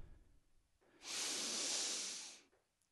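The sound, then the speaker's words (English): Soft, airy deep breath drawn in together during a short group breathing exercise: a single steady hiss that rises quickly, holds evenly for about a second and a half, then tapers away, with no talking. “So if you'll join me, just feel your feet. Feel your feet on the floor. And we're going to take in a breath.”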